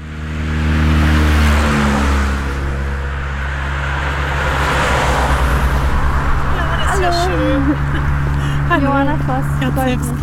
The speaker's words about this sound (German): Feldweg klingt erstmal nach Natur, tatsächlich sind wir hier aber zwischen einer Schnellstraße und einer Müllhalde unterwegs.